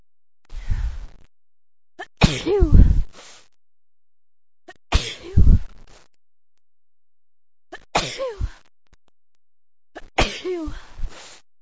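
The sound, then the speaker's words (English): A person sneezes over and over, five sharp, noisy bursts separated by silent gaps of roughly two seconds. “I woke up this morning and I couldn't stop sneezing.”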